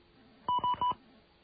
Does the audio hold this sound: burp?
no